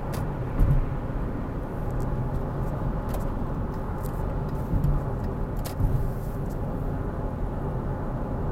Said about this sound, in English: Sorry, just people driving crazy on the highway.